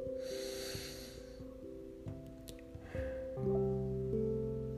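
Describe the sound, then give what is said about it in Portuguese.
A deep inhalation during a guided meditation session: a soft, breathy intake of air that rises in the opening seconds over sustained, gentle musical tones that continue throughout. “Mais uma vez, inspire profundamente.”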